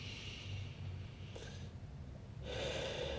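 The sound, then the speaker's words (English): Deep breathing in during a guided breathing exercise: a steady, airy rush of breath without words that swells noticeably louder and brighter near the end. “Keep breathing in”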